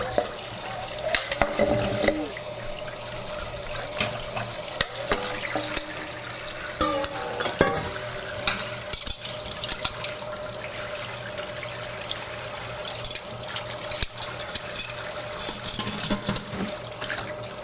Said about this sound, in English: So I'm going to take this opportunity to wash up what's in the sink.